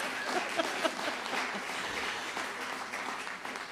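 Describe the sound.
Audience applause welcoming a singer onto the stage, a steady wash of many hands clapping that holds at an even level for the whole stretch, with no voices standing out.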